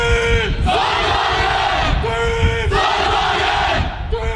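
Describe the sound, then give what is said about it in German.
Rhythmic group battle cry shouted in unison by a student solar car team from Aachen that competed in the European Solar Challenge, with loud repeated chanted phrases in short bursts. “So hört sich der Schlachtruf des Teams Sonnenwagen Aachen an, einem studentischen Team von RWTH und FH Aachen”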